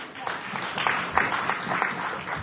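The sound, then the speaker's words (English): Applause from a meeting audience: brief, dense, even clapping at moderate loudness, running throughout the short clip with voices mixed in. “Usually when we applaud somebody, Jack, we stand”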